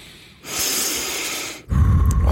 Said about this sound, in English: Deep breath.